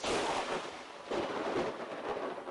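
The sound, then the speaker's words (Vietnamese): Rolling thunder booms from the sky during rain, a loud, sustained broad rumble that swells again around one second in and keeps rolling to the end. “Grim vừa nói xong câu đó, trên bầu trời vừa hay, giáng xuống một tiếng sấm rền.”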